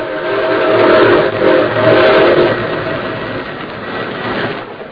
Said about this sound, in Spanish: Va pitando el tren. Eso quiere decir que vamos a llegar a una estación.